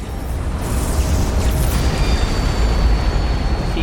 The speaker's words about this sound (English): He's doing the nuclear bomb.